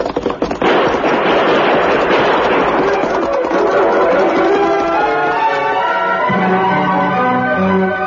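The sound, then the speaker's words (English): Gunshots as outlaws ride out to hold up a stagecoach: a loud, dense barrage of overlapping shots that blurs into one continuous roar, thinning slightly toward the end. “Have your guns ready. We'll ride out shooting.”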